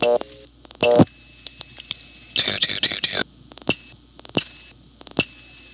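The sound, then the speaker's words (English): Dialing on a telephone line produces a string of sharp pulse clicks over a steady high line tone, with a short ladder of tones at the start and a noisy crackling burst midway. “However, I can dial the exact same thing, and 2-2.”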